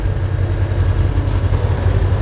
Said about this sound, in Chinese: 装甲车舱内，发动机的轰鸣声震耳欲聋